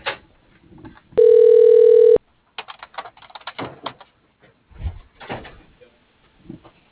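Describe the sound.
A telephone line gives a single steady electronic ring tone lasting about a second while a call is transferred to voicemail. Faint clicks and rustling noises come before and after it.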